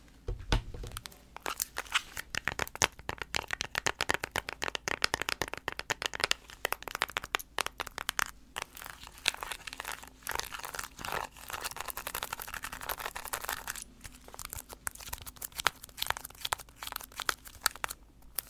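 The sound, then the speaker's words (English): Small plastic LED light remotes are handled and clicked, making a dense, steady stream of sharp, crisp clicks and crinkly plastic rattles at a fairly low level. “These little LED light remotes are some of my favorite ASMR triggers, but which one sounds better? Let's find out.”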